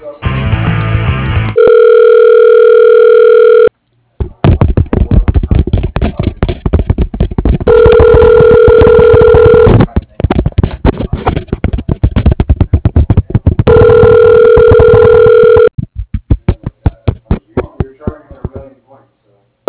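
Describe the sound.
Telephone ringback tone sounds while a call is transferred to an office voicemail, three loud steady ringing bursts of about two seconds each, spaced well apart.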